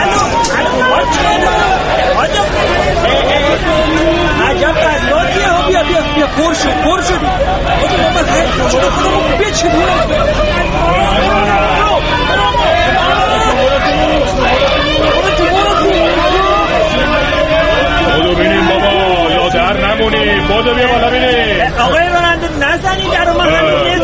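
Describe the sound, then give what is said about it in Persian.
Dense crowd chatter fills a busy bus stop, many overlapping voices forming a steady, loud hubbub that runs unbroken throughout. “الانم توی ایستگاه اتوبوس خیلی شلوغ وایسادن. آها اتوبوس داره میادش. چرا شلوغه؟”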